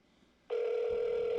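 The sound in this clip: A telephone rings on an outgoing call: after a brief near-silence, a steady, mid-pitched electronic ringback tone starts abruptly and holds unbroken to the end.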